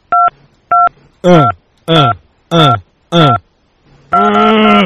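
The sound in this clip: Telephone keypad DTMF tones from a phone menu: two short, clean dual-tone beeps, then four louder, buzzy, harmonic-rich bursts in a steady rhythm, ending on a sustained, fuller tone.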